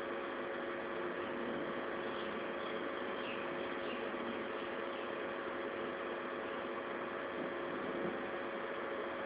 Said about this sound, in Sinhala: Fan එකේ සද්දයක් ඇහෙනවා නේද?